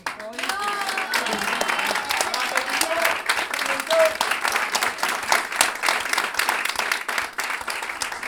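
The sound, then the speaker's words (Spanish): Audience applause at a live cueca music performance in a jazz school. Dense, steady clapping runs for about eight seconds, with a few brief tonal voices rising over it early on. “Mercedes Bichon, hoy con un aplauso”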